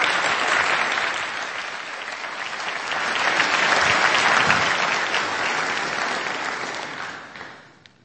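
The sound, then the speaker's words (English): Sustained applause from an audience welcoming a family member up to speak, a dense, steady wash of many hands clapping that holds level and then fades out near the end. “Let's give him a round.”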